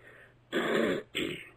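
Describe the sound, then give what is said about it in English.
Two harsh bursts of throat clearing, a longer rasping one followed after a short pause by a shorter one, loud and alone with no talk. “excuse me, I seem to have a frog in my throat”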